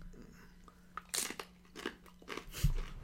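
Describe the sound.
Crunching of a spicy chip being bitten and chewed: a few sharp, crisp crunches at irregular moments over a quiet, faint background.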